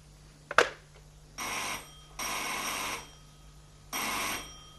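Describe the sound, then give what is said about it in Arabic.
A telephone bell rings repeatedly in a household scene. It comes as three loud, buzzing electromechanical bursts, each under a second and separated by short pauses, after a single sharp click at the start, with no voices. “وبعدين بقى انا هفضل كل شوية ارد على تليفونات؟ دماغي صدعت من الجرس اللي ما بطلش دق ده.”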